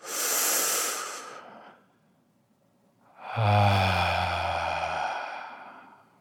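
A deep breath in and out during a guided breathing exercise. A hissing inhale comes first, then a short pause, then a louder and lower, faintly voiced exhale that trails off slowly.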